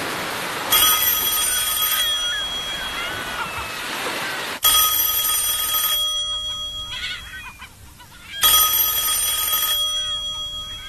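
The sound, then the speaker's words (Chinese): A telephone rings in a 1987 Cantonese-dubbed animated series, a bright electronic trill that repeats in long sustained bursts over a steady background bed. “佩佩，睇电话。”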